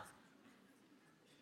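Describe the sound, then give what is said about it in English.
Faint, scratchy strokes of a marker writing the word October, quick and very quiet, with no voices over them. “you get your marker out and you write, I don't even know where my marker went, here it is, and you write October.”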